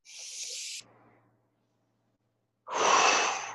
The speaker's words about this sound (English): Take a big deep breath, a breath like this.